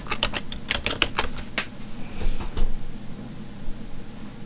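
Typing on a computer keyboard: a brisk run of crisp clicking keystrokes in the first half, then the clicks thin out, leaving a steady background hiss.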